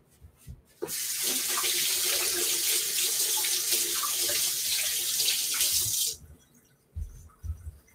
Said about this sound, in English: I'm gonna wash my hands again.